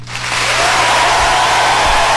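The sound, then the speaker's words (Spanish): Audience applause for a live musical backing band on a morning show, a dense, loud wash of clapping that swells in over the first half second and holds steady, with no voices over it. “para quien pido un fortísimo aplauso también, por favor.”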